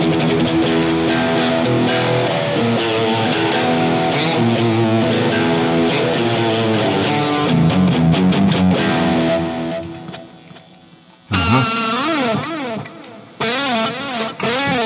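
Electric guitar played through a distortion effect, its loud, thick, sustained chords and notes ringing on without a break until near the end, where the sound cuts out briefly and then returns in shorter bends.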